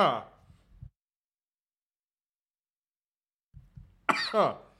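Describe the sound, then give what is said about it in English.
Coughing with a choking edge: a few harsh, throaty bursts separated by a long silence, loud and alone without talk. “Excuse me. I'm choking over here”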